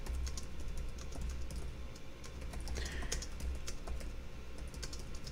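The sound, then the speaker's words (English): Typing on a computer keyboard: a steady, fairly quiet run of many quick, irregular key clicks that continues without pause, with no voices. “And I'm having to type and do all this stuff at one thing.”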